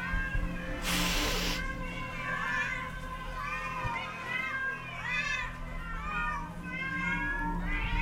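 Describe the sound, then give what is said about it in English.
Many cats meow at once in overlapping, wavering cries that rise and fall in pitch, layered over a steady low background rumble, with a brief hissing burst of noise near the start. “Hundreds of cats.”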